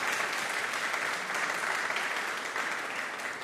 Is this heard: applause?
yes